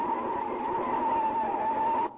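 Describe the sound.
Car braking sharply in a near miss: a loud, steady tyre squeal holds one pitch for about two seconds, then cuts off abruptly.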